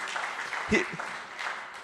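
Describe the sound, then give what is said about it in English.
Audience applause for a swimmer who swam 23 kilometres. The clapping is faint and brief, with a short louder swell partway through. “Let's just cheer for him.”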